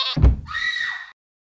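A lamb bleats as a sound effect: a dull low thump, then one drawn-out, high, wavering cry that cuts off abruptly into silence.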